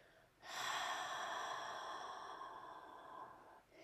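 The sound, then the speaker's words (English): A single soft exhale through an open mouth with the jaw dropped carries a little voiced sound. The breathy outflow starts abruptly, lasts about three seconds and slowly fades, quiet and alone. “Let's exhale with an open mouth, drop the jaw, a little bit of sound.”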